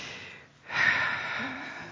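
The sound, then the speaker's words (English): A single deep breath drawn in by a man before he speaks, a broad airy rush that swells up after a short lull and holds steady at a fairly loud level, heard alone. “I just had to take a deep breath because this is the second time around.”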